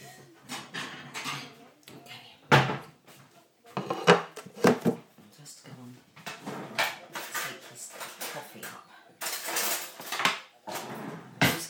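Clattering and clinking of jars and containers as someone rummages through a kitchen cupboard for a jar of Marmite: many irregular knocks and rattles in bursts, with brief pauses between them.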